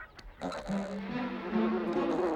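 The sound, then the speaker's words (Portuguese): A bee buzzes in a low, sustained drone whose pitch steps slightly higher partway through. “Ah, uma abelha! Abaixa!”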